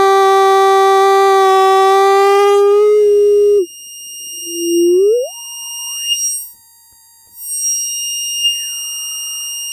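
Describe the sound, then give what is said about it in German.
Synthesizer filter in self-resonance: a buzzy, harmonic-rich tone cuts off into pure whistling tones that sweep upward to a piercing high pitch, hold, then glide back down. Loud, with no voices. “Ah, es geht in ihre Selbstresonanz. Also es klingt zumindest, als ginge es in Selbstresonanz.”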